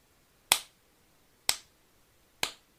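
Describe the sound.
A slow clap: three sharp, isolated claps spaced about a second apart, crisp and moderately loud against near silence, each decaying quickly.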